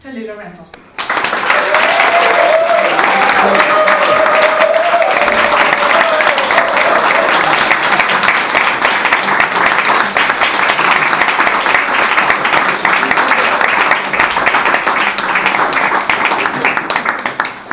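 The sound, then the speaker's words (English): An audience applauds to welcome a storyteller and hostess onto the stage. Dense, loud clapping starts abruptly after a brief quiet moment and holds steady for about seventeen seconds. “So would you mind putting your hands together and welcoming to the stage tonight your storyteller and your hostess,”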